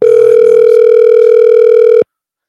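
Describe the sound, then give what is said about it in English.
Ringback tone of an outgoing telephone call: a single loud, steady tone holds for about two seconds and then cuts off into silence. “hopefully he'll answer the phone so he can tell his perspective on the story”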